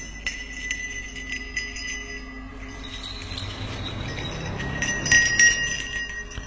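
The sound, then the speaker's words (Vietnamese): A small handheld bell is shaken gently during a ritual with burning incense. Many light, bright metallic rings and jingles ring out, clustering more densely toward the end. “Sau đó lấy ra trong tay nải một cái chuông. Lão lắc nhẹ lên”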